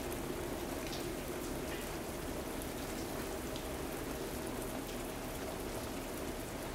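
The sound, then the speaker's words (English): Rain falling into puddles on a train station platform on a rainy night, heard as a soft, even hiss of dense drops with faint scattered patters that stays continuous and unchanging throughout. “Standing on a train station platform, the puddles bubble as the raindrops fall.”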